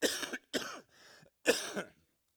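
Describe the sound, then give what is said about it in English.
A person coughs: a few harsh, breathy bursts with a softer, lower throat sound between them, heard alone with silence in the gaps. “Sorry, I got a cough.”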